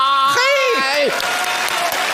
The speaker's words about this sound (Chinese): 那我们大伙儿感谢您，这掌声响起了。